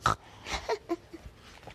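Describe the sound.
Pig snorting: a few short, nasal, breathy snorts in quick, uneven succession, fairly faint.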